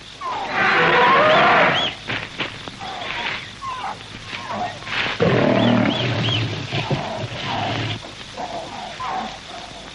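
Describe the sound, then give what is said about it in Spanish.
Loud, rumbling growls and roars of a lion prowling in a 1932 jungle adventure film, coming in heavy bursts with quieter breathy stretches between them. “Otro león merodea por la zona.”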